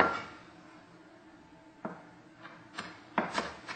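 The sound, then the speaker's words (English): A knife finely chops fresh baby dill, making a few soft, sharp taps at irregular intervals. The taps are faint over a low steady background hiss. “what I have here is I have some fresh baby dill, about a third a cup. So what I'm going to do is I'm just going to finely chop this.”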